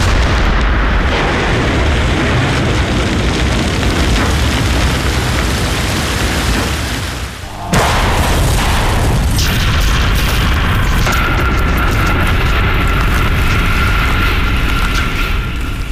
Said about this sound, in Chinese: 放炮喽！放炮喽！ 起炮！